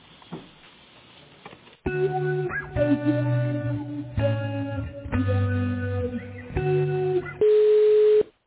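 Telephone-line tones play while a call is being transferred: a series of steady electronic pitches shifting in short segments, ending in one louder sustained tone, after a quiet muffled opening.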